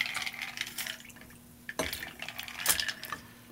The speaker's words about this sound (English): So I'm going to have you strain. So we've stirred this cocktail because it's all spirits.